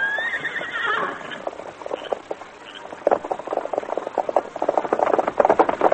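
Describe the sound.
Horses whinny and their hooves clip-clop. A loud whinny opens, then a steady run of many hoofbeats follows, with no voices.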